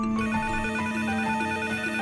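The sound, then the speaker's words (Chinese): An electronic telephone ringtone signals an incoming hotline call, a steady bright tone with a stepping melodic pattern that sounds alone throughout. “我们来迎接热线上听众的电话啊”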